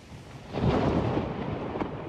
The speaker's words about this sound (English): First came the storms, sweeping across the south and west of England overnight, bringing 29,000 lightning strikes, according to the Met Office.